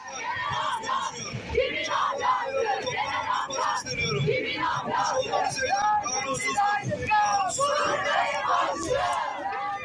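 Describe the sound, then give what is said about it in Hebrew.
A protest crowd chanting and shouting at a demonstration in Istanbul. Many overlapping voices form a continuous, loud wall of yells and rhythmic calls. “בוא נשמע קצת קולות מההפגנה שנערכה היום באיסטנבול.”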